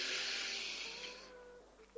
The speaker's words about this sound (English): Taking a nice big deep breath in now.